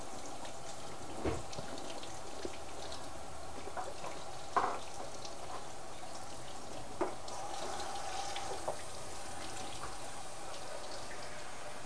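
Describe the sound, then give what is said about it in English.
A spoon being hand washed under a running tap: a faint, steady hiss of flowing water, broken by a few soft knocks and clinks. “See, look, I'm hand washing your favorite spoon.”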